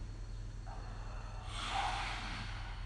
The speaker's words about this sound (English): a little lion's roar here. So inhale, squeeze all the muscles. muscles of the face, squeeze everything together, and as we exhale, stick out your tongue